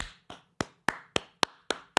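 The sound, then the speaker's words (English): A single person claps their hands alone, eight sharp, evenly spaced claps at a brisk, steady pace with no voices. “I am clapping for myself because it's a solo show.”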